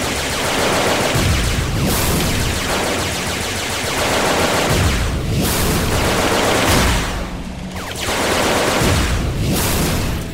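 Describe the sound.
Heavy explosions from a bomb-based video game roll on almost without pause, loud, dense blasts with gunfire-like crackle that surge in waves and dip only briefly between them.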